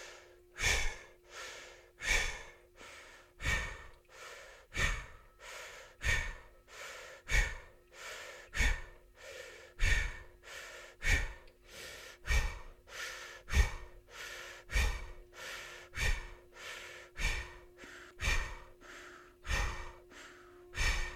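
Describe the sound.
Yoga breath-of-fire breathing: many sharp, forceful nasal exhales pumped out in a steady, even rhythm over a low sustained drone, with no talking.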